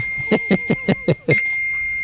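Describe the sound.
A bell-like studio sound effect rung as a punchline: five quick, bright strikes in an even rhythm, then a final stroke that rings on with a sustained high tone, heard alone without talk.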